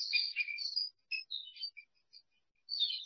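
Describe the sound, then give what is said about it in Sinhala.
Birds chirping and twittering in green natural surroundings. High-pitched calls come in short clustered bursts with brief gaps, fairly faint, with no talk. “පරිසරයේ ශබ්ද කුරුල්ලන්ගේ හඬ උළඟේ හඬ”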